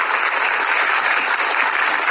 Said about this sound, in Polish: Proszę Państwa, proszę o brawa.